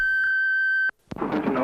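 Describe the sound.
A single steady, high electronic beep from an office answering machine holds for just under a second and cuts off sharply. After a brief silence, a voice begins speaking.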